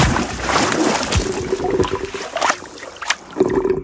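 Water splashes and gurgles as someone dives into icy water for an under-ice breath-hold diving contest. Irregular splashes and sloshing surges come and go, with a faint steady hum underneath.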